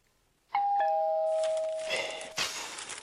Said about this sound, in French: on a sonné